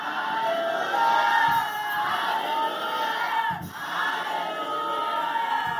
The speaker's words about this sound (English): If you believe it, shout three loud hallelujah.